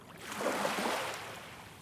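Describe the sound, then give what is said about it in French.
Waves wash against a jetty in the small harbour behind Malo, Dunkirk, as one broad rushing surge that swells and then slowly eases. “Des vagues sur une jetée. Dans le petit port derrière Malo. Sous un ciel gris.”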